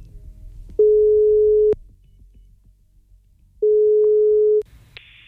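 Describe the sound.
Telephone call tones on a line: two long, steady, low tones of about a second each, separated by a long pause, followed by a short, higher-pitched beep at the end.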